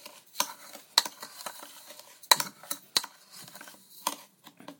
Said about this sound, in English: And then full of Epsom salt. Mix some.